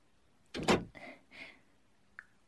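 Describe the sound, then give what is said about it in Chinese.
An unlocked door is opened to enter a room. A soft thump is followed by a couple of quieter scraping rubs and a small click at the end, all faint against near silence. “没有锁门，有人吗？我进来了”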